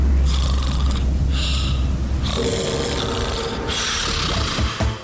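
Loud snoring: a few long, rasping snores with a deep rattle, alternating with breathy intakes, each lasting about a second, heard alone.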